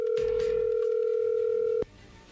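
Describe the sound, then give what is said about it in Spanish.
A telephone call rings out with one steady, loud ringback tone held for nearly two seconds, then cut off abruptly into a quiet line hiss. “se está marcando, no haga ruido.”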